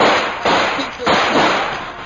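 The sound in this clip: Two rifle shots ring out in a battle scene of a drama as a machine gun jams, each a loud sharp crack followed by a noisy, fading tail.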